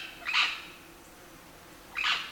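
Natural calls from two yellow-tailed birds with reddish tinges at the tail base, recorded at a riverbank. Two separate bright, high-pitched call bursts, one near the start and one near the end, with a quiet pause between.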